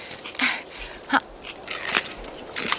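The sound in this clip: Someone bites into and chews a fresh apple, making a few short, crisp crunches spaced apart. The crunches are fairly faint against a quiet background.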